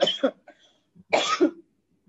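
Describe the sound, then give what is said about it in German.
Coughing in two short separate bursts, each a harsh double hack with a brief gap between them, with no talk over it. “Jetzt kann ich ja eigentlich auch geradeaus husten”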